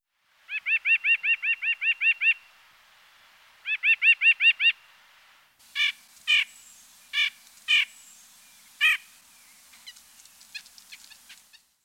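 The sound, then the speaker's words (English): Bird calls ring out in bursts: a rapid run of about nine high, harmonic notes, a shorter run of similar notes, then five louder, spaced calls, and finally many faint, quick chirps. “Bird 7.”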